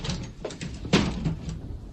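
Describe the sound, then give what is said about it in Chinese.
A window being closed on a windy day: soft scraping and shifting sounds, then one firm thud as it shuts, followed by faint knocks. “安在天关上窗户转过身来。”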